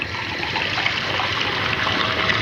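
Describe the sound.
Water pours steadily into a drink being mixed from thirds of lemon, a sharp ingredient and water. The continuous splashing trickle is fairly loud and even throughout, with no voices.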